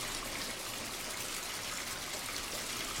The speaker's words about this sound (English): He glances at the running water.